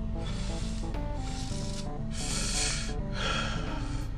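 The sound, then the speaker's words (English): A person smoking, drawing in and blowing out smoke in a few soft, breathy hisses that swell and fade one after another over a steady, low tonal background. “Excuse me. I'm smoking right now.”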